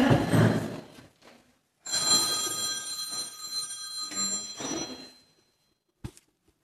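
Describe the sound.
A telephone rings during a church service: a sustained ringing tone, framed by a few soft knocks and thuds before and after it.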